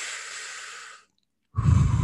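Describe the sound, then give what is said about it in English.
Recorded breathing used as a pacing cue: a long, airy exhale fades out, a brief silence follows, then a fuller, louder breath begins. “it's jazz music, but it's just somebody breathing in a cue.”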